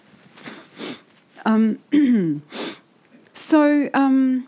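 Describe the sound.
A few short, breathy sniffs from someone reaching for a tissue while talking about humour, falling between stretches of speech.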